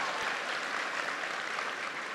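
Audience applause for a guest being introduced at a formal gathering: dense, even clapping from many hands that holds at a steady, fairly loud level throughout, with no voices on top.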